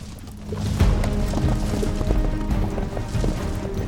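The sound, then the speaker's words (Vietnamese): A war horse gallops as its rider spurs it into a charge across a battlefield, with many rapid hoofbeats drumming in a steady, driving rhythm over a low rumble. “sau đó thúc ngựa phóng thẳng ra ngoài, trực chỉ lao đến chỗ Lý Thương Vi.”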